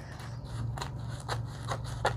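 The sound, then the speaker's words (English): Scissors snip through craft paper as it is trimmed, giving a few crisp, evenly spaced cuts over a steady low hum. “let's see if we can go around here and trim this off”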